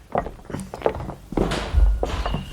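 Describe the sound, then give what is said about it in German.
A person stumbling and knocking over a flower pot: uneven soft knocks and footfalls, then a burst of scraping noise and a heavier, deep thump near the end. “Ich bin gestolpert und habe den Blumentopf darunter geworfen.”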